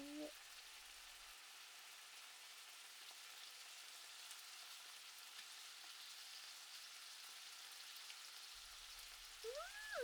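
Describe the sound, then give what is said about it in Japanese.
Sizzling of sauce poured from a bowl into a hot frying pan while the food is seared on both sides: a steady, fairly faint hiss throughout, with a voice briefly at the start and end. “両面を焼きながら、ボウルに残ったタレをフライパンに流し込んで、”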